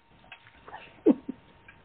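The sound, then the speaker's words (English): A senior dog laps water from a bowl, making a few soft, wet clicks at uneven intervals, with one louder slurp in the middle and quiet between them. “My senior dog drinking water out of a bowl.”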